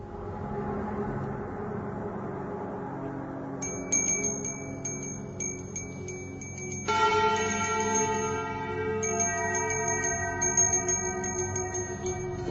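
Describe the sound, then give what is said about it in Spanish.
A small handbell is rung on a table on a night of the dead, its bright sustained ringing tones entering partway through and turning fuller and richer, over a steady low background noise. “Una campanilla característica en noches de difuntos, como tenemos aquí encima de la mesa, un servidor la está haciendo sonar”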